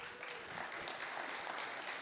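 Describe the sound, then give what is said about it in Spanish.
A church audience applauds, a soft, even rush of many hands clapping together that holds steady for a couple of seconds with no voices above it. “Podemos dar un fuerte aplauso al Señor. Let's give the Lord a hand again.”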